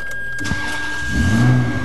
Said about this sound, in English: gets to start his Ferrari